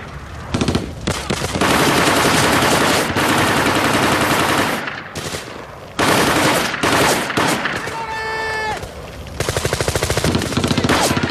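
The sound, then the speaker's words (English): Machine gun fire from Marines shooting toward fleeing insurgents: long, loud bursts of automatic gunfire with brief gaps, ending in a fast staccato run of rounds. “Marines continue to fire in the general direction of the fleeing insurgents.”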